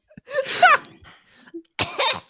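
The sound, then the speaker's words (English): Children coughing from overpowering smoke of several candles burning at once: two raspy, partly voiced bursts with small throat sounds between them, moderately loud. “We have these candles burning all at once, but they are overpowering and make the kids cough.”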